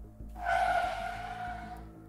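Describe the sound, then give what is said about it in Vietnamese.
Car braking hard, its tires skidding in one loud, sustained screech with a shrill squealing tone that holds for well over a second before easing slightly near the end. “Chiếc xe thắng gấp lại, cả hai như muốn ngã nhào về phía trước.”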